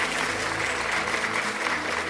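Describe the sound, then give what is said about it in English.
Audience clapping in dense, steady applause that holds at an even, fairly loud level for the whole stretch, without clear breaks or individual claps standing out. “So you can clap, you can do a lot of things, whatever you can do, just do it.”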